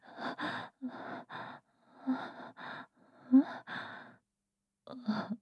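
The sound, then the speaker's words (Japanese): Deep breathing heard as a series of short, breathy sighs and gasps, some partly voiced, coming in uneven bursts with brief pauses between them, and no words spoken. “もう、深呼吸しないでください。”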